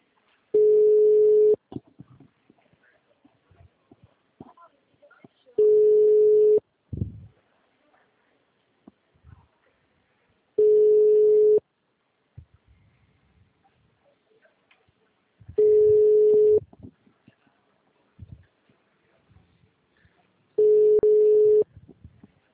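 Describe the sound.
Ringback tone while a phone call is placed: five steady, single-pitched beeps of about a second each, spaced roughly five seconds apart, with faint low rustling between them.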